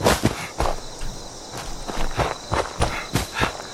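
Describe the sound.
Running footsteps in a video game: a quick, even series of crisp thuds keeps a steady pace from start to end with no voices.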